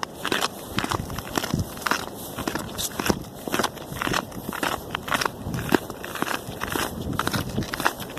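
Screw-in football studs clatter on hard ground in a long run of footsteps: many quick, irregular clicks and scrapes that are sharp and fairly loud, with a steady hiss behind them and no voices.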